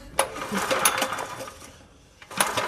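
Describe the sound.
An engine that is leaking petrol from the wrong opening is cranked to try to start it: a rattling mechanical whir runs for over a second and a half, fades off briefly, then a second burst of cranking begins.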